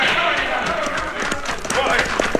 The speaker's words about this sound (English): That Cisco Kid and his partner's riding this way at full gallop.